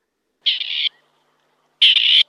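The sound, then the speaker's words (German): A grey partridge gives two harsh, rasping, high-pitched calls separated by a short pause, clear and alone with no other sounds. “Das hier, das ist ein Rebhuhn.”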